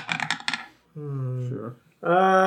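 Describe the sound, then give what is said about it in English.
Dice are thrown for a sleight-of-hand roll during a tabletop role-playing game, making a short burst of clattering clicks. Voiced sounds follow. “The sleight of hand, you'll have advantage. Yeah, which one of the dice do you throw?”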